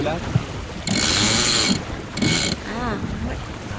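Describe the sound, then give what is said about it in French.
On an 8-metre sailboat, a sheet runs out as the genoa is eased, giving two rough, rushing bursts, the first about a second long and the second shorter, amid mechanical creaks and wind noise. “De gonfler un peu le génois pour appuyer un peu ce bateau.”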